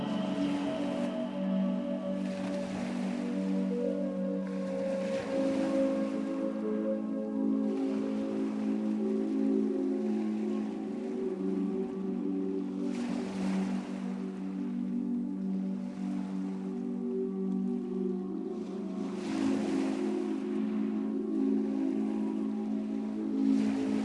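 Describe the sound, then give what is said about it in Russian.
Gentle waves break on a shore in soft, broad surges every several seconds, under sustained calm tonal music. “Вы слышите звуки волн, которые нежно разбиваются о берег, создавая гармоничную мелодию.”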